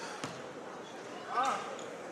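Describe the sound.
A basketball bounces after a missed free throw, giving one sharp, hollow thud near the start. A brief higher tone follows later over a steady background.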